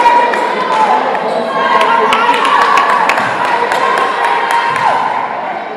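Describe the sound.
A basketball being dribbled on the court during a women's game, many quick, evenly spaced bounces over a steady crowd murmur, with voices talking throughout.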